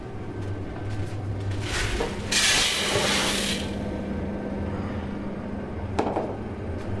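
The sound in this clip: Coffee roaster heating up to roasting temperature, giving a steady low hum and rumble. A louder burst of airy hiss rises in the middle, and a brief sharp hiss follows near the end.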